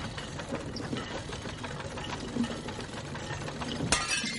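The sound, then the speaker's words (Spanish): A ceramic bowl holding a mixture is dropped and shatters: a single sharp, bright crash near the end, cutting through a steady noisy background. “Miran el cuenco roto.”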